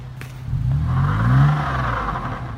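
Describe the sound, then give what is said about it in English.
The engine of an FJ off-road vehicle revs as the stuck truck spins its tires. It is a steady, droning mid-pitched roar that swells and climbs briefly in pitch, then eases back, with a faint whir over it. “He's stuck. Look at him spinning tires.”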